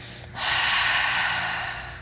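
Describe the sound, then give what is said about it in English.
A deep breath exhaled through the mouth during a guided stretching exercise: a single long, loud breathy rush lasting about a second and a half, heard alone without any talk. “take a deep inhale through the mouth, let it go.”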